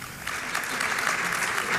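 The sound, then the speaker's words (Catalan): Crowd applause at a public event in Valls, brief, steady, dense clapping that holds an even level and swells slightly toward the end. “Uns aplaudiments del 50%, eh?”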